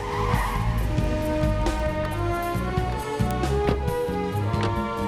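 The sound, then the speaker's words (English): Sports car tires squeal as the car screeches to a halt outside a hospital. A sustained, loud skid blends with engine noise for several seconds. “Carter and Lee screech to a halt in their sports car outside the hospital, jump out and go in.”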